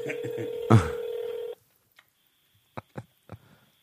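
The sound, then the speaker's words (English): Telephone dialing tones sound as a call is placed, a steady electronic tone with a brief louder burst, followed by quiet and a few short clicks and beeps while the caller waits for an answer. “Come on, Jaleel, pick up.”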